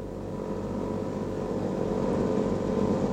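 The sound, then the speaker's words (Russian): Airplane approaching to land: a steady low engine drone and rumble, growing slightly louder over a few seconds, with no voices. “Самолет капитана Григорьева! Включить носовой прожектор! Он идет на посадку.”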